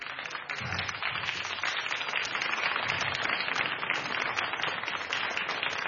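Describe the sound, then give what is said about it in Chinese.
Audience applause at a Guangdong music concert: dense, steady clapping that holds at an even, fairly loud level from start to finish, with no voices standing out. “给你掌声， 谢谢啊， 谢谢。”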